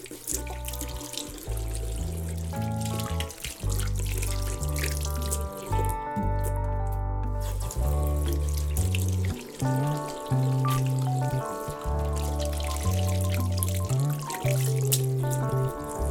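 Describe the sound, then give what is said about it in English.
Running tap water as hands are washed at home after coming in from outside, a steady flow with trickling and dripping throughout and a brief pause near the middle. “Back at home, I washed my hands again. I always do when I come in from outside first thing.”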